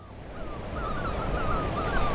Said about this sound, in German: Unten rauscht das Meer, oben drüber rollen die Laster.